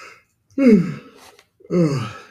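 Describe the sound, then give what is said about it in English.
A big human yawn comes as two drawn-out, voiced, groaning breaths, each sliding downward in pitch, separated by a short pause with a faint breathy sound in between. “Oh, that was a big yawn.”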